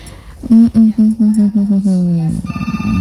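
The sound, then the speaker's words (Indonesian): A telephone rings as a radio station takes a listener's call: a loud run of short, evenly spaced tonal pulses, then a denser, quicker patter of softer pulses at the end. “Saya terima dulu penelponnya. Sabar.”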